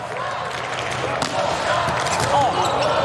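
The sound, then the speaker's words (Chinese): A volleyball bounces on the court before a serve at match point in a men's World League finals quarterfinal between Poland and Ukraine. Brief dull thuds sit over a loud, steady arena crowd roar. “库布奇的发球”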